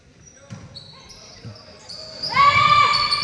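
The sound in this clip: A basketball bounces a few times as the referee retrieves it during a women's recreational basketball game. Muffled low thuds sit over a murmuring background, and a bright sustained tone joins near the end.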